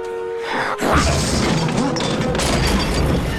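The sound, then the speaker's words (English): A medicine box knocked over during a fight crashes with a sudden loud smash after a brief quieter start, followed by continuing rattling and clattering noise. “The next attack from Steel knocks over the medicine box.”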